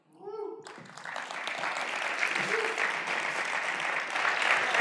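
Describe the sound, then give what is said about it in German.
Audience applause after a musical performance: a dense, steady clapping that starts about half a second in, just after a brief voice, and holds at an even level to the end. “Und genau, erstmal klatschen.”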